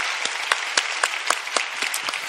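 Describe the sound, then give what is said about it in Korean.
A church audience applauds in encouragement with dense, steady clapping and regularly spaced louder claps that give it a loose beat. No voices are heard over it. “다시 한번 격려의 박수 해드리도록 하겠습니다.”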